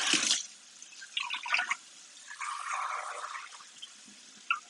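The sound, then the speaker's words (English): Water, about 2 cups, poured into a 6-quart pot, heard as faint splashing and trickling that comes in a few short bursts separated by quiet gaps, with no talk. “So because we're using those thighs, I'm going to put about 2 cups of water in my 6-quart pot.”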